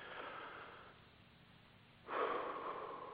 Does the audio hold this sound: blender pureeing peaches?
no